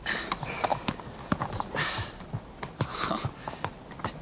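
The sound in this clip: Hooves of a horse being walked in a training ring clip-clop steadily, many even hoofbeats in a relaxed rhythm, moderately loud and alone without talk.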